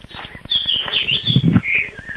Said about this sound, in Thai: เสียงนก